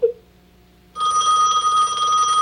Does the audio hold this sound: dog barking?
no

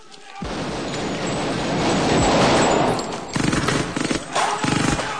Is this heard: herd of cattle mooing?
no

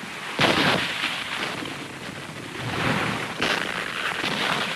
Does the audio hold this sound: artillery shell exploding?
yes

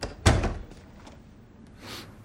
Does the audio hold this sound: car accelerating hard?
no

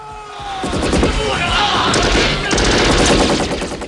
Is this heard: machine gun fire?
yes

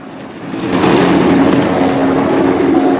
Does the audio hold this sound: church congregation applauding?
no

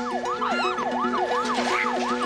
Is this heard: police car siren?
yes

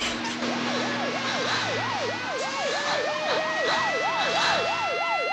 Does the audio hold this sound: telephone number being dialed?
no

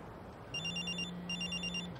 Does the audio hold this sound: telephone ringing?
yes

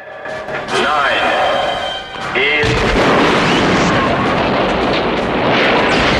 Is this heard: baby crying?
no

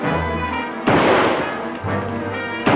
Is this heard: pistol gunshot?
yes

